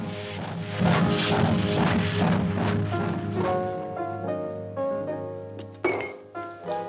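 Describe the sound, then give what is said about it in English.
A drinking glass knocked over on a table makes a brief sharp clink and knock near the end, with a smaller knock just after, over soft sustained music. “Rick accidentally knocks his drink over.”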